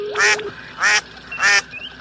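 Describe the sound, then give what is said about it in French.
A plastic rubber duck gives three bright, squeaky quacks in an even rhythm, each a short harmonic honk; a lower steady tone runs beneath the first. “Capitaine, d'après les détecteurs, il s'agirait d'un canard en plastique.”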